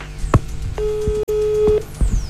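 A telephone call being placed gives one steady mid-pitched line tone lasting about a second, cut by a brief dropout, over low background noise with a few dull thumps.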